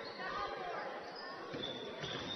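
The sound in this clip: Basketball being dribbled on the court during a game, dull bounces thudding under a commentator's continuous voice and the noise of the arena.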